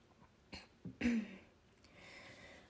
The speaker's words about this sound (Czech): Pardon, že jsem vám teď zakašlala určitě do uší, ale musela jsem, protože už bych vám to nedořekla.